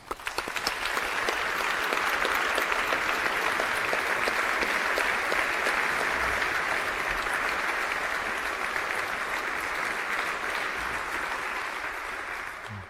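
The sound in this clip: A concert audience applauds to welcome a violin soloist before a performance of Barber's Violin Concerto, giving dense, steady clapping that holds for about thirteen seconds and eases slightly at the end.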